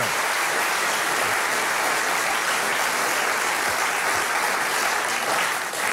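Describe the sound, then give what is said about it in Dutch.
Audience applause fills a hall after a talk, a dense, sustained wash of clapping that holds at an even level throughout with no voices on top. “Ik zou zeggen, geef ze een groot applaus.”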